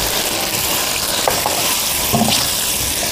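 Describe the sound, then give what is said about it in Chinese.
Stir-frying sizzle as soy sauce, oyster sauce, sugar and chicken bouillon are tossed in a hot pan: a steady, dense hiss with a few brief scraping stirring strokes on top. “少量的生抽，少量的蚝油，翻炒一下，再加入少量的糖以及鸡精。”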